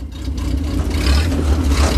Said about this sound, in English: The tires falter in deep sand ruts.